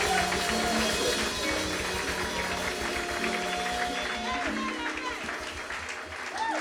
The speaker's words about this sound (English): Put your hands together and welcome Reverend Eben. Applaus.